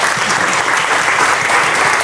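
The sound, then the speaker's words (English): Audience applause at the close of a talk on nationalism and democracy: dense, even clapping from a crowd, loud and continuous throughout, with no pauses and no voices over it. “Let's have a big round of applause”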